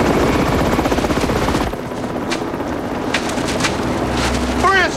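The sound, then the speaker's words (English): A helicopter hovers outside, its rotor chopping in fast, loud, even pulses before settling into a steadier, lower rumbling wash. “A helicopter hovers outside.”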